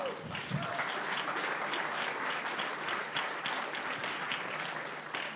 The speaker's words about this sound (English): Let's give him a big hand.